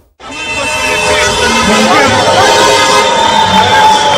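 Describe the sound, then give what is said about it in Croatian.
Street celebration in a capital city after a Bosnia and Herzegovina victory: a loud, continuous din of crowd noise and passing cars that rises suddenly at the start and stays dense throughout. “Duge kolone vozila, sirene, vatromet, ali i navijačke pjesme odjekivale su ulicama glavnog grada. Donosimo dio atmosfere.”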